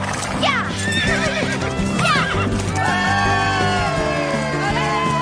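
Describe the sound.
A pony whinnies during a race, giving a few shrill, wavering neighs over steady clip-clop hoofbeats throughout.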